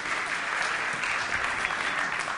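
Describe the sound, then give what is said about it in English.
Audience applause for two guests who have just been introduced during a talk about baby development. Even, dense clapping runs steadily throughout at a moderate level. “Why don't we give these guys a round of applause?”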